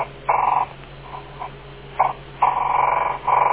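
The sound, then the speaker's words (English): Buzzy interference on an AM radio picked up from a DVD player remote control held beside it. A few pulsed, rasping bursts rise out of a steady hum and static, separated by short gaps. “That sound you're hearing in the background is my AM radio. I'm holding alongside of it my remote control. This happens to be a remote control for a DVD player.”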